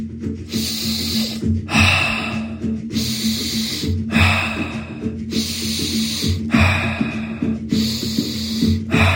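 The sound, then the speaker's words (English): Fast breathing in through the nose and out through the mouth, heard as many quick, evenly paced breaths: breathy nasal inhales alternating with airy mouth exhales in a steady rhythm. “do an in for two and out for two. It's going to be in through the nose, out through the mouth. It's a little bit faster in the pace, a little bit more activation.”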